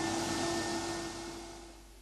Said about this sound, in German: Geht der Staubsauger rein? Ja, bitte, steckt man halt gleich neu an, nicht? Der saugt wie der Teufel.